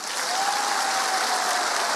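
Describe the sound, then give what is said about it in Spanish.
A single person clapping alone during a church service, steady rapid claps for about two seconds at moderate volume, with no other voices. “Ahí está el aplauso solitario.”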